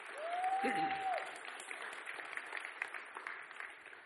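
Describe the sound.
Applause from a church audience welcoming an elder to the front. A brief tonal whine sounds at the start, then steady, soft clapping continues throughout.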